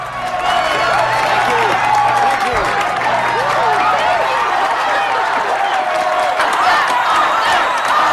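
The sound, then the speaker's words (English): A crowd of supporters in a huge hall greets an arriving presidential party with loud, continuous clapping, cheering and occasional whoops, a dense roar of voices that stays at full loudness throughout. “The beaming presidential party walk through the hordes of supporters towards the stage in the huge hall.”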